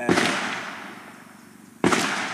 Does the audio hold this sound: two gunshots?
yes